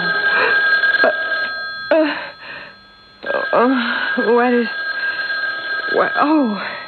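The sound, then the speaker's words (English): A telephone rings with steady, high, bell-like tones that stop briefly midway, while people talk over it. “It's a phone. Phone.”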